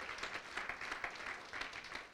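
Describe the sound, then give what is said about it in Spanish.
A church audience applauds during a worship service, a faint but steady wash of many hands clapping with no voices over it. “Yo creo que Dios merece que le demos un aplauso hoy para exaltar su misericordia sobre nuestras vidas”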